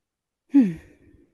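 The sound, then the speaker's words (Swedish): A person takes a single deep breath: a short, breathy rush of air that starts abruptly, slides down in pitch and fades into a faint, soft tail. “så får jag ett nytt andetag”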